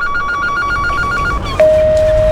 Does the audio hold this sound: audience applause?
no